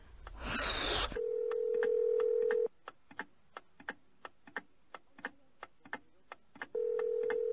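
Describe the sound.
Telephone ringback tone heard while calling someone. A burst of noise comes first, then a steady low ringback tone, then a long run of regular faint clicks, and finally the tone starts again.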